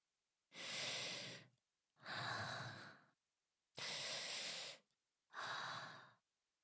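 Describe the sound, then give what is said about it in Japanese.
Deep breathing, four long, airy breaths of about a second each, separated by short silences and fairly soft, with no voices. “はい、ちょっと深呼吸しようか。”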